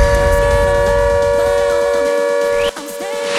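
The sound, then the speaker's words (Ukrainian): An air raid siren sounds a loud, sustained, single-pitched wail that holds steady and level, then breaks off briefly near the end. “Увага всім! Увага всім! Повітряна тривога! Прослідуйте до найближчого укриття.”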